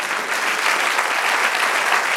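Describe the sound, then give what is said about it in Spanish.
Applause from a church audience, a dense wash of clapping that holds evenly loud and unbroken for the whole stretch, with no voices standing out. “Den un aplauso al Señor.”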